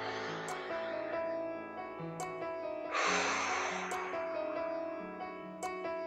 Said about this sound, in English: And one last time, deep breath in.